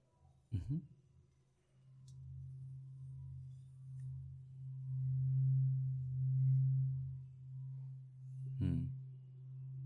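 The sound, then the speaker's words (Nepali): A singing bowl's rim is rubbed, drawing out a low, sustained ringing tone that builds and swells in waves over several seconds, with a short sharp sound at the start and another near the end. “यसरी रब गरेर the rim यसले अर्कै स्वर दिन्छ होइन”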